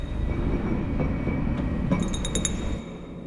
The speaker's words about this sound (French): J'ai une tasse de café, je la laisse tomber.